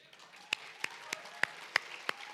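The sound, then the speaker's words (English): A church audience claps in praise, six sharp, evenly spaced claps in a steady rhythm, fairly faint. “If you're in that position, clap and praise God.”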